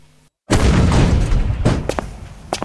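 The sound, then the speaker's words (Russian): Cannon fire in a siege battle, old cannons hurling cast-iron balls. A heavy boom bursts in after a brief silence and rolls on in a rumbling decay, followed by a few sharp cracks. “Кто же так стреляет из пушек? Ни одного попадания.”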